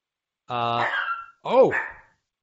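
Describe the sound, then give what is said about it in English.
A dog that wants to be let out gives two whining barks, a drawn-out whimpering cry followed by a shorter yelp with a rising then falling pitch. “I think the dog wants out”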